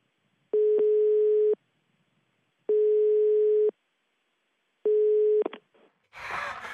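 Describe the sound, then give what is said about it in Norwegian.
A telephone ringback tone sounds while a call is placed: three long, steady, mid-pitched tones separated by silent pauses. The third tone is cut short and followed by a burst of rough noise. “Bare ringe Petter.”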